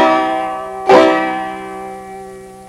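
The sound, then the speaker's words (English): A C chord strummed once on a five-string instrument tuned with a C bass string and a high G fifth string, one bright full strum that rings on with sustained tones slowly fading. “And if you fret a C chord with your left hand, it should sound like this when you strum it.”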